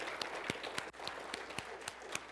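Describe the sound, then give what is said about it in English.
A Baptist church audience applauding during a Sunday morning service: a fairly faint, dense wash of clapping with some sharper individual claps standing out at irregular moments. “There you go. See, Baptists, we can clap. We can celebrate.”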